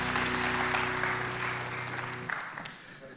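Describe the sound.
A church audience claps to welcome a pastor: dense, steady applause over a sustained tone that cuts off partway through. The clapping then tapers off into scattered claps.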